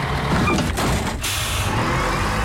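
A bus pulls in with a loud, steady engine rumble and broad air-brake hiss that fills the whole stretch, briefly dipping partway through.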